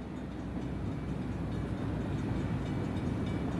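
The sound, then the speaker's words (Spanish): A train travelling through a tunnel gives a continuous, loud, dense low rumble and roar that holds steady throughout, with no horn or distinct clacks standing out. “Pues lo cierto es que ir en tren todo el rato por un túnel no tiene demasiada”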